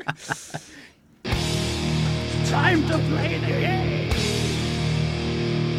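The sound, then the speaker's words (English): New wrestling entrance theme in heavy rock style: a brief spoken vocal line, then after a short pause loud distorted guitars and drums crash in and drive a steady riff to the end. “As they composed a new theme song for him. And it is 3 hours long and sounds like this.”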